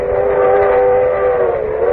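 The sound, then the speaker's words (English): A train coming to a violent stop gives a loud, sustained tonal shriek held steady throughout, with a low rumble beneath it. “Sitting in the coach, looking out the window, and then suddenly the train shuddered to a violent stop.”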